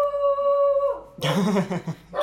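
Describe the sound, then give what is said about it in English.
A female dog barks at nothing, loud harsh bursts breaking in after a steady tone that holds for about a second. “there you go. Classic. Just barking at nothing.”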